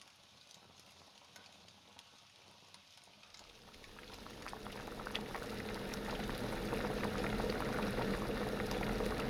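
Water heating to a boil for tea: a soft bubbling hiss that grows steadily into a loud, continuous, rolling boil, heard alone.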